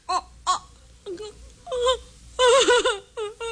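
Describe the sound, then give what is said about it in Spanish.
A woman crying and moaning in several wavering, pitched sobs and wails that rise and fall, growing louder and more strained toward the end, with no words spoken. “Me da igual que llores o que gimas.”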